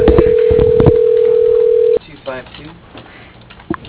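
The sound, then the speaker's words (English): A telephone dial tone holds steady for about two seconds, then cuts off as a number is dialed. Brief line sounds and faint voices follow. “number dialed”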